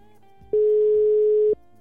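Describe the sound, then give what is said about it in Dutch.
A telephone tone plays while a call is placed: a single steady, even tone lasting about a second, which starts and stops abruptly over a faint background. “En het enige wat we kunnen doen is haar even bellen.”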